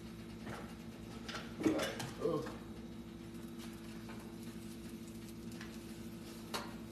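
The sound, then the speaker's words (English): Vegan chicken tenders are flipped in a frying pan: a cluster of metallic clinks and scrapes from a utensil against the pan, then a quieter single tap near the end. “I should flip these chicken tenders. I should not be lazy. And I should flip the tenders. I'm gonna flip them, you guys. It's gonna be crispy, evenly. Evenly crisp.”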